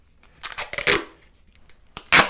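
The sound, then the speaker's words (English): Duct tape is pulled and torn off the roll in a few short, rasping rips, a cluster close together and then one sharper tear at the end. “"Why don't you take some duct tape?" I just happen to have some right here.”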